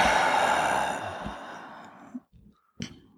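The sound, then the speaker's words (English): Deep breathing during a Taoist neigong exercise: a long, breathy exhale fades slowly, followed by a few short breath sounds and a sharp final intake. “inhale. Exhale.”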